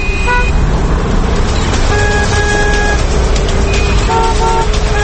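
City traffic with car horns honking: several overlapping toots and longer blasts cut through a loud, steady rumble of engines and road noise, with horns sounding in short bursts throughout.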